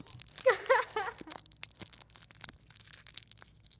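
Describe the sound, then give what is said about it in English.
Crinkling and tearing of a snack wrapper as it is unwrapped. A loud, papery burst comes first, then many softer crinkles and rustles trail off. “So just for that ASMR experience, I'm gonna unwrap mine now.”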